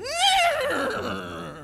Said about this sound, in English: riding in on a white stallion is your new friend, Baston